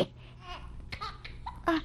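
A baby cries in short, high, fussy bursts with brief pauses between the whimpers and wails.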